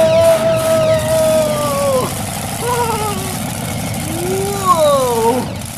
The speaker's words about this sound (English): I love driving a monster truck.